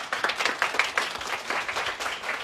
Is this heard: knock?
no